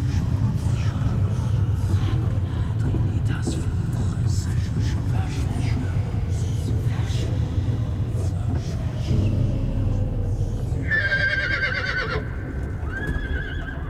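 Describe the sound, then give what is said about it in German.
Two black horses neighing beside an ancient cathedral in the early morning. A steady low rumble and clopping hooves run throughout, and a loud, high, wavering whinny rises near the end. “Der uralten Kathedrale des heiligen Simeon scheuen die beiden schwarzen Pferde. Ihr teuflisches Gewieher zerreißt den frühen Morgen in blutige Fetzen.”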